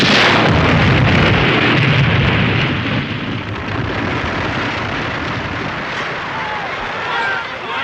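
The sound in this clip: An artillery gun fires at a target, a loud, heavy boom whose deep rumbling roar slowly fades and lingers for several seconds.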